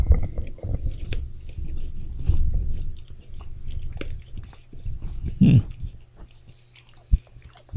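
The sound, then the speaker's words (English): Chewing on a piece of coconut: many moist, crunchy bites and mashing sounds in an uneven rhythm, with one louder crunch partway through and a sharp click near the end, and no talking. “I'm going to eat this piece of coconut.”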